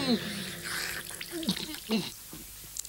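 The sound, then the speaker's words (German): Water scooped up with the hands to drink, heard as brief splashing and trickling swishes mixed beneath talking voices. “Sieh mal da, da schöpfe ich das Wasser mit meinen Händen, ja, so wie du. Trink.”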